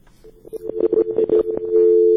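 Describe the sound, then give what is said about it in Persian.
Disconnected telephone call tone: a steady mid-pitched line tone runs under choppy, crackly bursts, then settles into a loud, continuous single-pitch tone once the call drops. “دی شنواری سب تلفن قطع شده”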